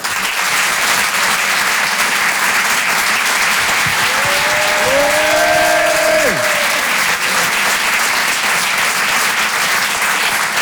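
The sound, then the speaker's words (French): An audience applauding and cheering at a live comedy show in a Paris theatre: dense, loud, sustained clapping throughout, with a brief whooping shout or whistle rising and falling near the middle. “Faites du bruit, s'il vous plaît, pour Maoulé.”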